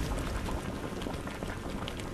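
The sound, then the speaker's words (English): Maple sap boils down over a stoked fire in a steady, dense bubbling hiss with faint popping, unbroken and without voices throughout. “Stoking a fire to boil down that maple sap in Geauga County.”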